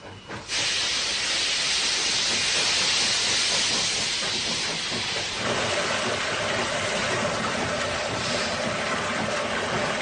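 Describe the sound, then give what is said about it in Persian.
Loud, steady steam hiss from a noisy 1950s-built steam locomotive of a common Chinese type. A broad rushing roar begins after about half a second and holds at an even level to the end, with no voices. “این یک لوکوموتیو بخاری است از نوع رایج در چین و با سر و صدای زیاد.”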